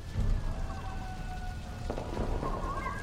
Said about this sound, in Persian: طوفان جاده ها رو بسته، ولی من مثل موش از جاده های فرعی اومدم.